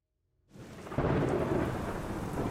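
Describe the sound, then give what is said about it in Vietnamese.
Heavy rain pours down outside at night as a dense, steady roaring hiss with a deep rumbling undertone, swelling in quickly, thickening after a second, then continuing unbroken on its own. “Ngặt nổi cơn mưa bên ngoài lớn quá”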